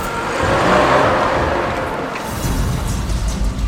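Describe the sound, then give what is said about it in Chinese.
A jeep accelerates away as the driver floors the gas pedal to flee, giving a loud, broad engine roar and rush that swells early, then holds fairly steady and eases a little. “刘鹏已经气喘吁吁地跳上了事先准备好的吉普车，他一踩油门赶紧夺路而逃。”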